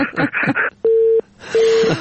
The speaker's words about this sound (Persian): متاسفانه تماسشان قطع شد.